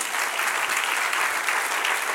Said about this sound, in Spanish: Denle otro aplauso al que reina.